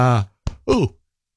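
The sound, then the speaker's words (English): A human yawn, a long voiced exhale followed by a short catch of breath and a falling, groaning tail, fairly loud and close, with no words spoken. “sorry, just did a bit of a yawn there.”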